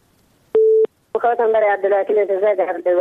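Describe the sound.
A telephone line tone sounds as a call drops: a single short, steady mid-pitched beep stands alone, followed by a pause and then a voice talking.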